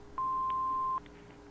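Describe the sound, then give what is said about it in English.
Answering machine beep on a home phone line: one steady mid-pitched tone lasting under a second, sounding alone over a low constant hum, followed by a couple of faint clicks. “Leave a message after the beep.”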